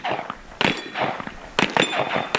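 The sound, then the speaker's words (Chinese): Shots hit metal targets at a shooting competition, where all three targets are struck: a few sharp metallic clangs ring out with bursts of noise in between. “现在我的附近这名队员也已经是来到了二号射击区。好，是三个目标靶全部命中。”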